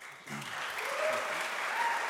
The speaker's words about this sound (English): We ask for no applause, please.